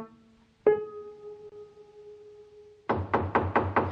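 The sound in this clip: Knocking on a door, a quick run of about six sharp raps arriving late, after a single ringing tone struck earlier that hangs and slowly fades.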